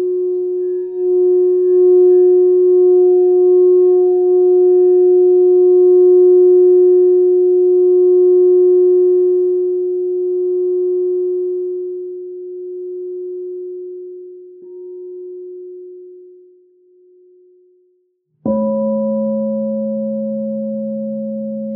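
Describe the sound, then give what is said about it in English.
Singing bowls ring with pure, sustained tones: a low humming note with fainter overtones slowly fades over many seconds, then a fresh strike rings out near the end, with no talking. “Allow the sounds of the bowls now to heal your heart and bring you love.”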